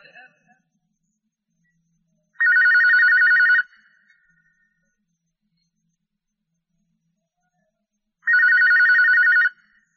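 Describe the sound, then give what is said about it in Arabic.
Telephone ringing as a caller phones in a question. Two separate bursts of steady, warbling electronic ringing, each lasting about a second, are divided by a long silence. “من سلسلة الهدى والنور أجوبة على أسئلة عبر الهاتف.”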